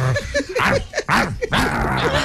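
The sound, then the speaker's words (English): A drooling dog begging at people makes many short whining yelps, each rising and falling in pitch. The yelps are fairly loud and follow one another almost without pause. “He's dribbling too, just like Pavlov's dog. Stop looking up at us like that.”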